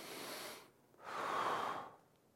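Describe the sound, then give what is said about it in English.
A person taking a deep breath as if for a stethoscope exam of the chest or back: a faint, airy rush of breath, a brief pause, then a longer, fuller breath. “They put the stethoscope on your wherever, back or chest, and they say, take a deep breath.”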